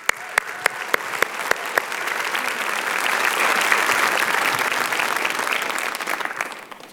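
An audience at a morning church service applauds to welcome a guest minister to the stage. A few sharp, separate claps at the start grow into dense, steady clapping that swells toward the middle and slowly tapers off.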